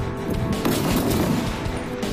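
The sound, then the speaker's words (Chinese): Sniper rifle shots ring out at a shooting competition with targets at 600 and 800 meters: a few sharp cracks over a loud, continuous rumbling wash of gunfire. “那他们分别要走600米和800米目标进行射击。”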